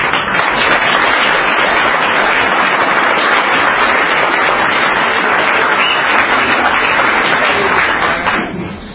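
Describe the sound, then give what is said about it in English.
Dense, steady applause from an audience at an Alcoholics Anonymous fellowship meeting welcoming a speaker. The loud clapping holds evenly throughout and tapers off at the very end. “Please help me welcome our speaker.”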